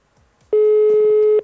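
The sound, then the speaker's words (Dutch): Telephone ringback tone heard during a live radio call: a single loud, steady electronic tone lasting about a second, with no other sound over it. “We hebben telefoongeluid.”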